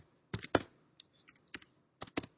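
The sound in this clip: Keystrokes on a computer keyboard while code is being written: a quick cluster of clicks, then sparse single taps and a closing pair of bursts, with no voices.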